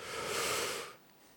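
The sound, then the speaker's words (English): A deep breath drawn in during a guided breathing moment in a Buddhist talk: one long airy rush of inhalation lasting about a second, then it stops into near quiet. “can you please take a really deep breath in? Really deep.”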